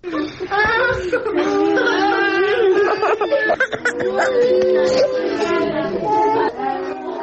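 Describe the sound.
Children displaced by war cry and scream in a camp in Kabul, with several high, wavering, overlapping wails and whimpers. The voices rise and sustain loudly throughout.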